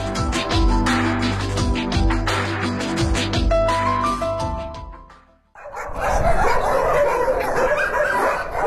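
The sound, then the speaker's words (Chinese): Many dogs barking together at a stray cat and dog shelter in a village near Beijing. The barks are loud and overlap in a constant din, briefly dropping away before surging back denser. “听这声音大家就能分辨出来，这店养了很多狗。”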